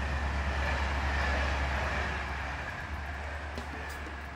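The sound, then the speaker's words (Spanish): A night train from Limoges to Paris runs fast through the Loire Valley at about 161 km/h, making a steady, fairly faint rumbling roar that fades slightly toward the end, with no voices. “El tren nocturno de Limoges a París recorre con rapidez el Valle de Loira a 161 kilómetros por hora.”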